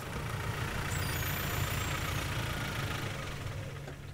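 Engine of a ranger's car driving onto a dike by the Elbe near Dömitz, a steady low rumble that stays even and fairly faint throughout, with no voices.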